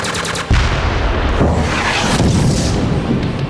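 Weapons firing in a battle: after a brief moment, a sudden loud blast is followed by more booming bursts and rough crackling that continue at a high level with no voices.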